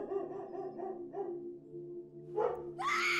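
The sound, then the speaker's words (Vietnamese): Dog barking on a winter night, a few short, low barks spaced irregularly, followed by a louder burst toward the end. “tiếng chó sủa rang như báo hiệu một kẻ bất lương ác độc đã về bên kia”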